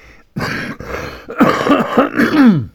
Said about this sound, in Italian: chiedo scusa, purtroppo sapete, ho la tosse